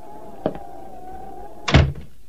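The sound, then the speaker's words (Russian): A door being opened: a light latch click, then about a second later a heavier thump, both heard over a steady faint hum. “Да-да, позвольте, я открою вам дверь.”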